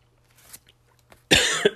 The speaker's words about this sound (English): You guys thought that was a burp, didn't you? No, it's a cough because I'm getting sick.